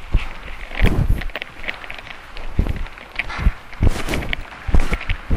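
Footsteps of people walking during a walking exercise, a loose, uneven series of soft thuds and scuffs mixed with rustling and wind buffeting the microphone.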